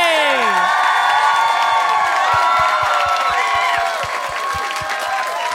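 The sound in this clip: Applause and cheering from an audience welcoming a comedian to the stage, with high whoops and shouted voices sliding over loud, continuous crowd noise, and a steady run of low thumps joining partway through before the cheering eases slightly.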